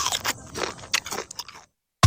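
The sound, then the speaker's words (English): A creamy, crunchy Nabisco biscuit is bitten and chewed in a run of crisp crunches, then a short silence before one loud, sharp bite at the end. “Creamy, crunchy Nabisco coaster.”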